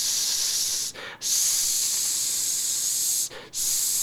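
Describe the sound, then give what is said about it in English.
A voice imitates a hissing snake, stuck on a drawn-out S: a loud, steady hiss that runs for several seconds, broken by two brief pauses. “I used to be compared to a hissing snake because I couldn't get the S out.”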